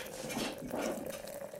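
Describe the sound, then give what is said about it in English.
Coffee pours in a short, faint stream of liquid with a soft burbling wash that swells briefly twice before easing off. “I'm going to pour myself some coffee.”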